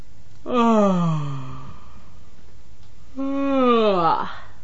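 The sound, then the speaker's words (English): Two stifled yawns from a woman, each a voiced, drawn-out groan with falling pitch, separated by a short silence. “What you just heard were 2 stifled yawns.”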